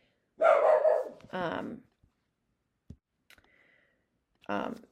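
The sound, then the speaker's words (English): A dog barks in the background in a few short, sharp bursts, with faint clicks and quiet gaps between them. “Sorry about the dog in the background.”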